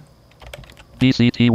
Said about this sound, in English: And I'll type C colon back BCT.